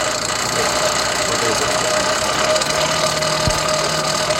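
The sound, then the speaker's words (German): Old forge driven by an old bicycle rear wheel: a steady mechanical whirring rumble with a constant low hum, loud and continuous throughout. “was man hier gerade ganz wunderbar hört, ist diese wunderschöne alte Esse, die wir haben. Die, habt ihr das schon beschrieben, mit einem alten Fahrradhinterrad angetrieben wird.”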